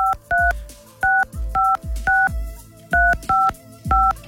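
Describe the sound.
Telephone keypad tones beep as a number is dialed, a run of short, bright two-tone beeps in uneven rhythm with a brief pause partway through.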